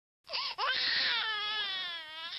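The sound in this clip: A newborn baby cries alone, starting with a short wail that breaks off briefly before rising into one long, loud, sustained cry with a bright, strained tone that wavers slightly in pitch.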